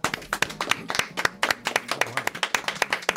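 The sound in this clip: Audience applause: dense, steady clapping from many hands, with sharp overlapping claps running through the whole stretch.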